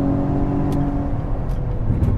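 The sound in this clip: A car engine droning steadily while overtaking another car on the road, a low humming tone with a continuous rumble and a few faint ticks over it.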